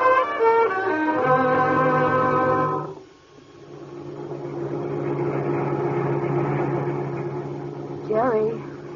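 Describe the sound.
A car engine hums steadily while driving on a trip up to a cabin, a mid-pitched drone that settles in after a voice fades and runs evenly for several seconds before a brief voice returns near the end.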